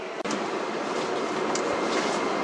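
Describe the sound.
Beijing subway train arriving at Panjiayuan station, heard from inside the car as a steady, full rumble with one sharp click near the start and faint rattles.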